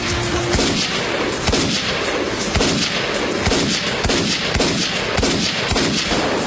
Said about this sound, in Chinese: 他用另一只手开枪射向黑老大，并用自己的身体挡住了对方的子弹。